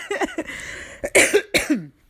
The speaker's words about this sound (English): I apologize for coughing in your ears. I'm not feeling too well